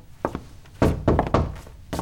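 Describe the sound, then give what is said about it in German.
Knocking on door number 22 on the first floor of a building: a few dull, heavy thumps at uneven intervals, loud and alone without any voices. “Vor der Tür mit der Nummer 22 blieb er stehen und klopfte an.”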